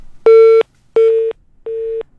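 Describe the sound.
Telephone busy tone after a call is cut off: three identical steady beeps of equal pitch, each about a third of a second long, separated by short silences, loud and clean with nothing else heard.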